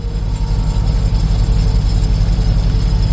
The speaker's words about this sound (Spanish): Está justo al lado de un intenso sonido, el del generador eléctrico de la Cruz Roja.